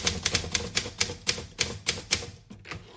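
Typing on a typewriter raised up on a stand: a quick, even run of many crisp keystrokes clacking alone without talk.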